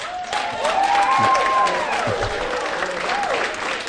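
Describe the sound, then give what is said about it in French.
Church audience applauding and cheering to acclaim women during a French-language sermon, with steady clapping and voices calling out in high, sustained tones over it. “Donc on acclame les femmes.”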